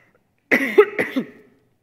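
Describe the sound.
A throat-clearing cough from a tickle in the throat: a short, rough run of three or four quick hacking pulses, with no other sounds around it.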